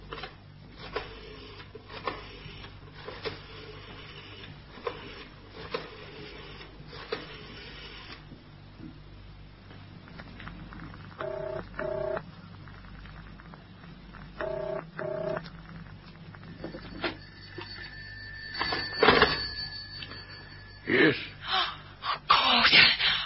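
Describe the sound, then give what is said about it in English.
A telephone is dialled and then rings: soft clicks and a low rumble give way near the end to a few brighter, warbling ring bursts, all thin and band-limited. “I'm going to telephone his house.”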